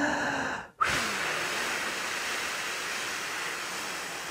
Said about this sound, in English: See if we can breathe in and blow out for five counts.